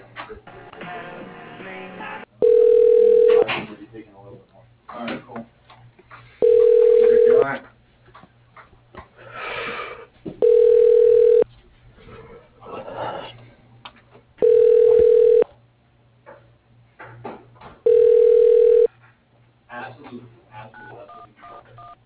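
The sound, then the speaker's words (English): A telephone rings back while a call is transferred to an office extension: five steady, evenly spaced tone bursts of about a second each, with softer background sound filling the gaps between rings. “Okay, hold on. Let me get you this extension, okay?”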